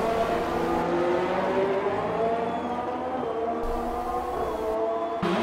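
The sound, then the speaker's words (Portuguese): Loud, sustained engine whine from a Haas Formula 1 race car during an overtaking move in a race. Its harmonic tone holds high and steady over a broad roar, with no talk. “Vamos acompanhar então o Lavacar aí negociando aí a ultrapassagem em cima do Federico. Tá aí o Lavacar. Ele que veio com a sua Haas na tarde de hoje.”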